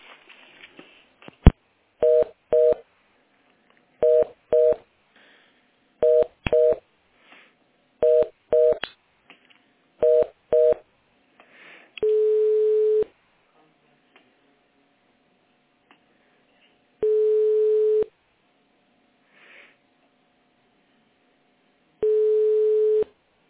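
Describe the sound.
A telephone call being transferred: a few faint clicks, then five paired dialing beeps at an even pace, followed by three long, evenly spaced ringing tones separated by silence.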